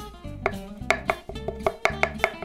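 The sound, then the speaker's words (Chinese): A knife chops scallions and dices carrots in many quick, evenly spaced strikes, steady and crisp, over a low sustained hum. “那首先呢，我们先把葱切成葱花，胡萝卜切丁，”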